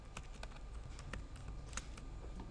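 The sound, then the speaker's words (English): Typing a word on a computer keyboard connected to a Windows 7 PC: a quick, uneven series of faint, crisp key clicks over low background hiss. “In the upper right hand corner, I want to type in the word Java.”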